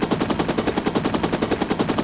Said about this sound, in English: This agent just threw what appears to have been a grenade and fired a machine gun.